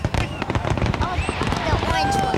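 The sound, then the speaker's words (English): Fireworks burst at a public display in a quick run of sharp pops and crackles, with whistling rockets sliding in pitch between the bangs. A crowd is present and people talk over the explosions. “What do you think of the fireworks?”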